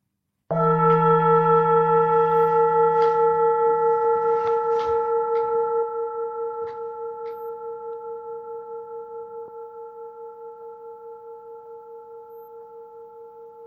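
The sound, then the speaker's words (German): A singing bowl struck once to close a meditation, its single bright strike blooming into a long, steady ringing tone with a slow pulsing waver that fades gradually over more than ten seconds. “Und beende den ersten Teil der Meditation mit dem Ton der Klangschale.”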